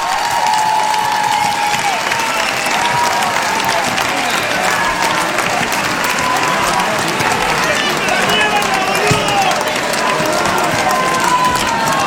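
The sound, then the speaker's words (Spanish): Crowd applause and cheering at a Spanish-language political rally, loud dense clapping that runs unbroken for the whole stretch, with a voice calling out over the noise. “¡Hermoso! ¡Aplauso para ellos! ¡Maravilloso!”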